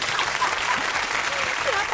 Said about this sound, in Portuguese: Então, palmas pra ele.